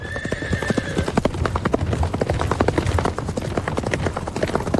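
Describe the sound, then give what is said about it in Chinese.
Horse hooves clip-clop in a steady, busy rhythm as a man and his son ride into an ancient town in northern Shaanxi on an October morning, with a brief whinny near the start. “伴着朝阳，任师傅带着儿子骑马进入古城。”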